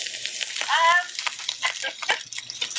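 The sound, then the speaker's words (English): Fried rice with peas sizzling in a pan, a steady bright crackling hiss that continues throughout with small pops and fluctuations in loudness. “I'm making one of your recipes. Can you tell me if this six's done? Hang on. What is it? It's fried rice.”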